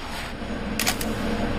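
A camera shutter firing to take a photo in a lab during the microscope dissection of a dung beetle: a quick, crisp double click over a steady background hiss.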